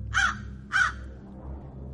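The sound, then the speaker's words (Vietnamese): A crow cawing at night: two harsh, loud caws with a short pause between them, over a faint low hum. “Thoáng nghe tiếng quạ kêu giữa đêm, rồi ả xòe bàn tay thon thả ra.”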